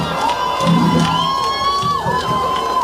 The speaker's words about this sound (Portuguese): Euforia! Escute o público!